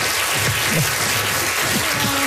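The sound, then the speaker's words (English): A round of audience applause, a dense, steady, fairly loud wash of clapping with faint low rumbles beneath, lasting a couple of seconds. “That is incredible. Round of applause.”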